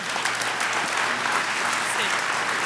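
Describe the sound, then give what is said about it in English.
An audience claps steadily to welcome a speaker at a morning gathering, a dense, even wash of applause that runs throughout. “So put your hands together, and please welcome my wife, Julie Earlywine.”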